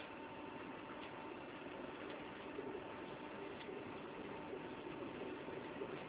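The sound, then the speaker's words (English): A NASA electric propulsion thruster test device runs after its power supply is switched on, giving a steady, even whir with a faint hum and no pauses throughout. “This is a test of the NASA Electric Propulsion Thruster, patented on January 21, 2002. Now, I switch on the power supply.”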